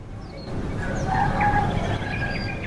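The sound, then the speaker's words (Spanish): A rooster crows in the background, a faint, drawn-out call partly buried under steady low rumbling noise. “Ahora tenemos hasta un gallo de fondo.”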